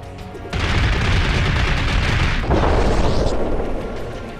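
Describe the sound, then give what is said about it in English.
Video game gunfire from a character firing a gun, an abrupt, loud, dense wall of booming shots that holds steady throughout with a second surge partway through. “Oh, Mystique had a gun, huh?”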